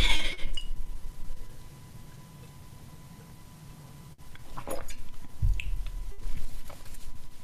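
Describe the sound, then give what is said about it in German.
Someone takes a sip of a drink during a pause in a talk: faint, quiet handling with a light glassy clink and small wet squishy sounds, a few soft clicks and no speech. “Nehmen einen Schluck.”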